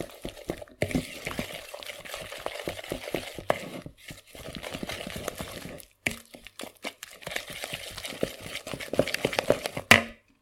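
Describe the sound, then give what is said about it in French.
Beer being stirred into a batter, with many quick, irregular wet scraping and sloshing strokes that come in bursts with short pauses between them, ending on a sharper clack. “On va rajouter la bière. Tout d'abord très peu, on mélange, et ensuite on en rajoute davantage.”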